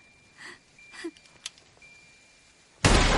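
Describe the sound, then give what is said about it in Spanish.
Pistol gunshot in a thriller film: a sudden, loud, harsh blast at the very end, after a stretch of faint, scattered quiet sounds. “Le dispara en la cabeza.”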